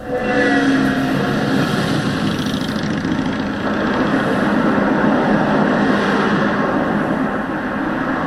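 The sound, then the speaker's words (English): Road traffic on a commuter road beside a park in Saanich: a loud, continuous rumble of vehicle engines and tyres with no pauses and no voices. “Mount Douglas Park, and if you're near one of the roads, you'd be hard-pressed to hear the sounds of nature over the noise of traffic”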